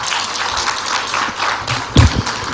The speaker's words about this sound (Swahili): Ujazo wa makofi hautoshi, tumuongezee makofi mengine mengi.